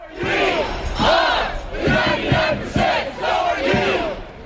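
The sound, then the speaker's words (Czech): A protest crowd chants slogans in unison in a city park during a demonstration against economic inequality. The loud shouted phrases repeat in a steady rhythm with brief gaps between them. “Protesty se později rozšířily i do dalších měst, třeba do San Francisca, a v Zuccottiho parku to znělo takto.”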